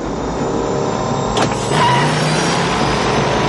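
A DeLorean car accelerates hard to about 120 km/h, a sustained loud roar that swells sharply past the midpoint and then carries a rising tone as the engine climbs.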